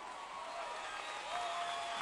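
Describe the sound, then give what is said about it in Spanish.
An audience applauds a singer's band at a concert with mariachi, a steady, dense wash of clapping and crowd noise that swells slightly toward the end. “Fuertísimo el aplauso para mi banda.”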